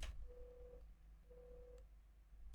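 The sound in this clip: Telephone busy tone after a phone call is cut off: two steady mid-pitched beeps, each about half a second long with a pause between them, over a low hum.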